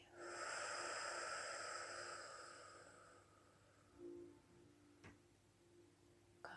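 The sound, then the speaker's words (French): A deep breath in and out during a guided breathing exercise: a long, airy rush that holds for about three seconds and then fades. A few faint, soft sounds follow in the quiet. “Inspirons profondément et expirons.”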